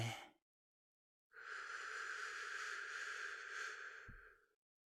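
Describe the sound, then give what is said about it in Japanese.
A slow, deep breath drawn in during a guided breathing exercise. The long, steady, airy inhalation lasts about three seconds and follows a short breath sound at the start. “僕と一緒に深呼吸をしてください。ゆっくり吸って。”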